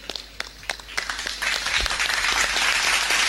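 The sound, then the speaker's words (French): Audience applause for three parishes presented at a faith contest final, starting as scattered individual claps and swelling into dense, sustained clapping that stays loud to the end. “On va acclamer hein, les trois paroisses qui sont présentées.”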